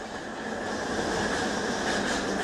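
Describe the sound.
Subway train in motion, with a steady, even roar of wheels and carriage noise that holds at a constant level throughout, with no voices heard.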